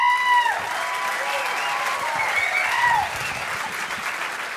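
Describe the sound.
An audience applauds to welcome a musician back to the stage at a live concert. The clapping is dense and steady for the whole clip, with a few high whistles rising and falling above it.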